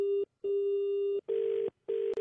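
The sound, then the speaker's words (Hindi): A telephone rings with a steady electronic tone in four bursts separated by short gaps; the later bursts sound buzzier and rougher than the first two. “फिर यार बार बार phone आ रहे हैं”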